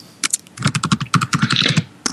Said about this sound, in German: was tippst du denn da?